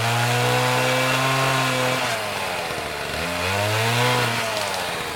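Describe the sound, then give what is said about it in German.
A chainsaw felling trees in a forest gives a loud, continuous engine whine rich in harmonics. Its pitch drops partway through, then climbs back as the engine revs up again. “Manchmal hören wir auch dieses Geräusch im Wald. Denn wir fällen im Wald Bäume, weil wir ihr Holz nutzen.”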